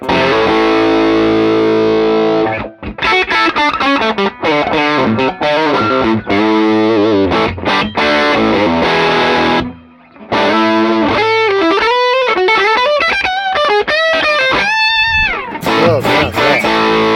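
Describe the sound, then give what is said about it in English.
Electric guitar played through heavy distortion, loud continuous riffing with sustained, wavering notes and a couple of brief breaks, alone without voices. “Pretty good for a guitar meant for I have no idea what, but yeah. Something. Let's hear that top neck.”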